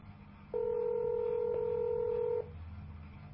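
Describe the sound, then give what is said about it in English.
One sustained telephone keypad tone is held for about two seconds as an extension is dialed into a county jail's automated phone menu. A faint steady line hiss sits before and after the tone. “If you know the extension of the person you'd like to reach, dial it now.”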